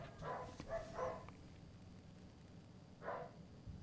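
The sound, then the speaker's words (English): Dogs bark faintly, giving a few short barks close together and then a lone bark after a pause, over a low background hiss. “sorry, the dogs are going crazy for some reason. I don't even know what's going on. I think they're really getting excited about Worlds.”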